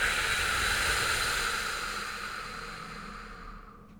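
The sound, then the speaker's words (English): Long, airy hiss of breath pushed out through pursed lips to cool a hot drink. The breath stays steady and fairly loud, then gradually fades over a few seconds, with no talking. “And purse your lips as you exhale and breathe out.”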